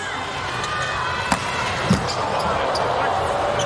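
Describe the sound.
A volleyball serve in a match involving the Slovenian team: two sharp ball hits stand out over steady, dense crowd noise.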